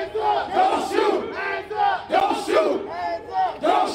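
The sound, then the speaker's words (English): A crowd of demonstrators chants at street protests in Minneapolis, many voices shouting together in a loud, rhythmic, repeated cadence with short swells. “Some sounds there captured during the weekend in Minneapolis, where demonstrations began last week”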